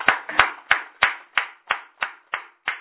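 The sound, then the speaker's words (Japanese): Applause for a 49th birthday sounds as nine crisp, evenly spaced hand claps in a steady rhythm, with no voices over them. “49歳の誕生日ですので、盛大な拍手で”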